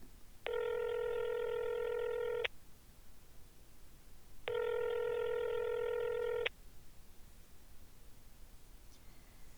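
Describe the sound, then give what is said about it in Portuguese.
Telephone number being dialled: two long, steady electronic tones sound one after another with a gap between them, over faint background hiss. “Tentou ligar para Dona Mirtes, que era a avó do Walt Disney.”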